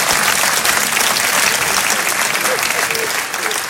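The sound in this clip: Audience applause breaks out during a French-language lecture, a dense, steady, continuous clatter of many hands at an even, fairly loud level throughout.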